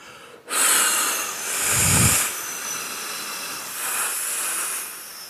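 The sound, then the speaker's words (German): A long, forceful hiss of breath pushed out on an 'F' sound during a voice and breathing exercise. After a moment of quiet it holds steady and loud for about five seconds, with a brief low rumble near the middle. “Du atmest jetzt mit mir auf F, auf F aus.”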